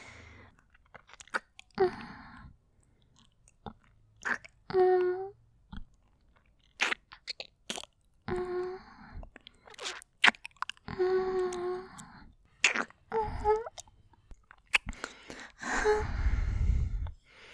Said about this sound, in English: Shall we give a little kiss? I can do that.